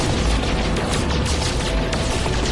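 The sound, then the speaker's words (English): Weapon fire in the space video game No Man's Sky blasts a hole through an asteroid, a dense, loud, unbroken roar of rapid shots filling the whole stretch. “Oh, I can shoot a hole through this fucker.”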